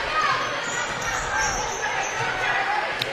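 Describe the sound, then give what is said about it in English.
A basketball is dribbled up the court during a women's game, its bounces blending into dense crowd noise and voices in the gym. “will dribble it up.”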